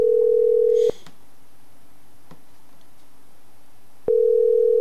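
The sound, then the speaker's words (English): A telephone line tone on a call placed to someone's mother: a steady mid-pitched tone that cuts off after about a second, leaving a gap of about three seconds with a few faint clicks, then resumes at the end. “So Alyssa's getting a call from her mother.”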